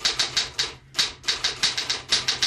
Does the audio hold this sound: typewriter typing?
yes